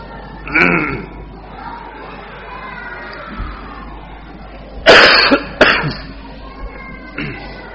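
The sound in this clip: Coughing during an Islamic study lecture from someone who has had a cough since the day before: a few harsh, raspy bursts, one near the start and a tight cluster later, over a low, steady background hum.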